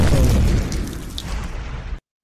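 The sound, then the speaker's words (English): An explosion sound effect of bursting flames: a loud, deep boom at the start that settles into a rough, rumbling roar, then cuts off abruptly at about two seconds. “Of course, you know I'm going to have flames exploding.”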